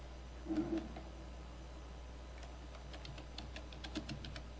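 Computer mouse clicking: a series of faint, sharp clicks, mostly in the second half, over a low steady hum.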